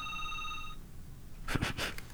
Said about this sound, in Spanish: Tenemos ahí el tono ya